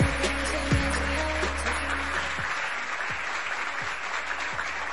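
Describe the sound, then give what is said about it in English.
An audience applauds and cheers on a radio show from Atlanta, Georgia. The clapping is dense and steady and fills the whole stretch. “Give a round of applause. Round of applause.”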